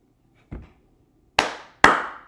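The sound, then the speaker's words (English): Hand claps ring out: one softer clap, then two big, sharp, loud smacks in quick succession, each with a short decaying tail. “gotta do a big clap because good music is back.”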